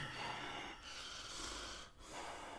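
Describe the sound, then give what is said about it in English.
A voice imitates a very overweight person's heavy breathing with loud, rasping, wheezy breaths drawn out in a few long pulls, with brief gaps between them. “have you heard fat people breathe? Like, really big people? They're like,”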